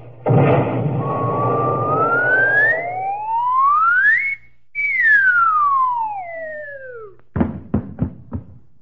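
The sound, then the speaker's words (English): A comedy cannon fires a man toward Hollywood in a noisy burst. A long whistle follows that glides up and then falls, ending in a few sharp knocks. “I'll have my friend Joe shoot me out of a cannon. Here I go into the barrel.”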